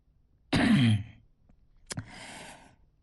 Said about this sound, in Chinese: 轻咳了一声